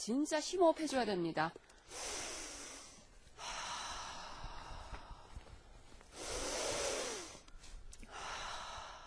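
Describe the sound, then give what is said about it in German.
Deep nasal inhales taken to smell fragrant, resin-rich pine cones in a pine forest. Two long breathy sniffs follow a short burst of voice, with softer breathing between them. “So viele Zapfen liegen auf dem Boden und sie duften immer noch. Ich sollte hier noch einmal tief einatmen.”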